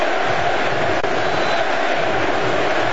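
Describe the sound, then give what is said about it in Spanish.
A soccer crowd in the stands at a United States World Cup match in the Bay Area makes a loud, dense, continuous roar of massed voices with no distinct individual events. “Los sonidos en la tribuna, los sonidos del fútbol.”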